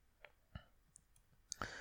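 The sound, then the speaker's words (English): Keyboard keys tapped while a message is typed: a handful of faint, irregular clicks spread out, ending in a slightly louder cluster of clatter. “I'm good to just type this message real quick while you talk?”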